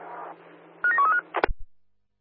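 Telephone keypad tones dial a number in a quick run of short electronic beeps, followed by a brief clunk and then silence.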